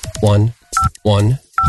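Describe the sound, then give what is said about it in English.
Phone keypad tones sound as a voicemail password is entered: two short, loud electronic beeps alternate with brief voiced sounds. “I'm going to check my voicemail right now, putting in my password.”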